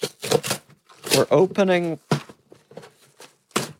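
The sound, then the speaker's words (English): Paper tearing as a mailed envelope is ripped open: a few crackly, papery rips in short bursts, with a voice heard briefly between them. “Let's rip it open. Let's see if my raw strength can get... Oh, we're getting in. We're getting in.”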